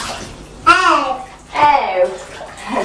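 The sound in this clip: Bathwater splashes and sloshes as a child is washed in the tub, heard under two short stretches of a child and an adult talking.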